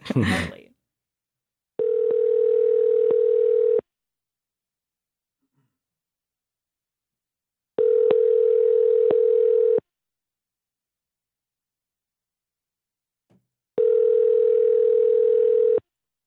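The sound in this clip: Ringback tone of an outgoing telephone call: three long, steady ringing tones of about two seconds each, separated by silent gaps of about four seconds, after a short burst of noise at the very start.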